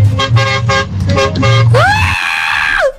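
A big truck's horn sounds after a few brief pulsing noises, blaring out as a loud, bright honk that bends upward at its start, holds steady, then drops away at the end.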